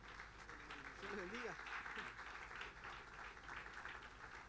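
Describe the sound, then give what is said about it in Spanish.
Congregational applause during a church service, a soft, dense patter of many hands that holds steady throughout, with a voice briefly sounding over it near the start. “Ese aplauso de alabanza al Señor.”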